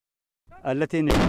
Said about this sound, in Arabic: اندلعت أصوات المدافع في الجبهة الأمامية